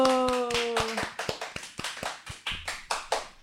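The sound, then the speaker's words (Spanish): Rhythmic hand clapping from a crowd at a street event: many sharp, even claps in a steady beat, with a sustained tone fading out during the first second. “Un fuerte aplauso.”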